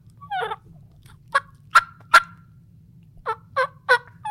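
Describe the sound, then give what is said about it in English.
Turkey purr made on a slate friction call during spring turkey hunting in Arizona: about eight short, raspy, rolling notes at uneven spacing, fairly loud over a low, steady hum. “a purr is more of a contented just chit-chat between calming. You can do it with a diaphragm. It sounds different. That was actually with a slate call.”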